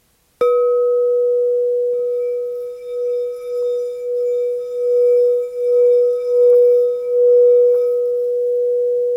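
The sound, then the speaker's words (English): A quartz singing bowl rings the note E: a sharp strike opens a pure, steady, sustained tone that lingers for several seconds with a slow, swelling pulsing wobble in loudness, alone with no voices. “So this is a quartz singing bowl.”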